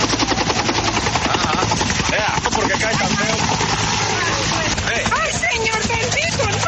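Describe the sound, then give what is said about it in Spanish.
Rapid, loud rotor chop of a military helicopter buffeted by strong winds and nearly crashing during a humanitarian aid flight, a continuous dense thumping with rushing wind noise, with voices talking over it throughout. “la emergencia ocurrió cuando la tripulación del helicóptero militar llevaba ayudas humanitarias al corregimiento Laureles, a veredas incomunicadas, pero los fuertes vientos hicieron que por poco se estrellaran.”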